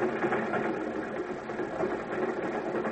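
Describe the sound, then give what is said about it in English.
Train wheels rolling on rails, heard from inside a rail car: a steady, dense mechanical rumble and rattle that continues unbroken and fairly loud, with no voices. “He listened to the sound of the wheels on the rails”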